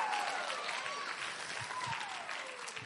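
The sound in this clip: An audience at an evening church gathering applauds to welcome a preacher to the stage, a dense, steady clapping that stays loud and even throughout.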